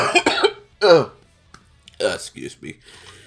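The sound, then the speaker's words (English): Harsh coughing comes in a few rough, throaty bursts: two strong ones close together, then a pause and a cluster of shorter, weaker hacks. “you started coughing up blood, it sounded like.”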